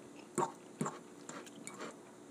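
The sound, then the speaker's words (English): Chewing of homemade pasta cooked the day before: two clearer soft bites, then quieter wet chewing sounds, all faint against low background noise. “I'm enjoying some pasta that Jenny made yesterday. I'm eating it right now.”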